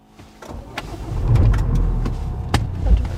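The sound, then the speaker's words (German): A car drives on the road on a morning trip near Baden-Baden. A steady low rumble of engine and tyres runs throughout, with a few sharp clicks and no talk. “Am nächsten Morgen, 7.30 Uhr, auf dem Weg nach Bühl bei Baden-Baden. Wir fahren jetzt zu einem Kurs, den ich gebe dieses Wochenende.”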